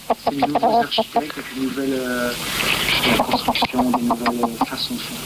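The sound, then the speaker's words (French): Hen clucking in a run of short, throaty clucks broken by a few drawn-out cackling calls, fairly loud and fast-paced. “C'est intéressant ce que dit la poule”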